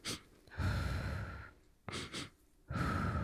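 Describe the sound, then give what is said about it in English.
A breathing exercise: soft, airy breaths through the nose, ending with two quick sniffs in followed by a long, slow breath out through the mouth. The sequence is quiet and steady. “It's simply like breathe in very quickly, two breaths in through the nose, and then one slow breath out through the mouth.”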